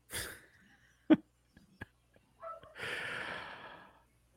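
A dog's short, sharp snort, followed by a few faint puffs and a longer stretch of breathy, snuffling noise.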